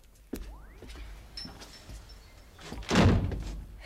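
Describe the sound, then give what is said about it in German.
A door being closed: a sharp knock early on, then a louder, fuller thud near the end, with faint scraping between. “Mach doch mal die Tür wieder zu, ja?”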